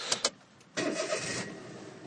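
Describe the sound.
A neighbouring car's engine starts at night in a convenience store parking lot near rice fields: two brief clicks, then the engine turns over and settles into a steady, moderately loud run.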